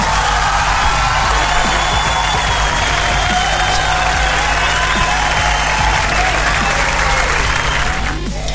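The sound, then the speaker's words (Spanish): Crowd applause: a dense, steady wash of many hands clapping continues loud and unbroken for the whole stretch and eases slightly only at the very end. “Así que un aplauso y un saludo cordial para Sergio 9.”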